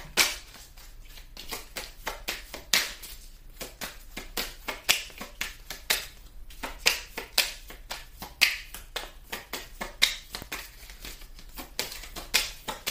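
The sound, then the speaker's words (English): Tarot cards handled during a reading: many crisp flicks, slides and soft snaps of card stock in an irregular, steady stream, fairly faint and with no talk. “That one just happened to catch my eye as I'm going through the cards right now.”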